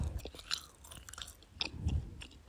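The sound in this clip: Quiet chewing of hard Haribo gummy sweets: soft, irregular crunching and munching bites spread over a couple of seconds, with no talking.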